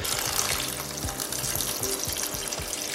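Cold water pours into a pot of soaked white beans to start their cooking, a continuous, fairly soft rushing splash with faint low knocks underneath throughout.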